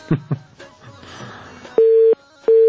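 A telephone busy tone follows a dropped phone call: soft clicks and faint noise, then two loud, steady electronic tone bursts of equal pitch, the second cut off at the end.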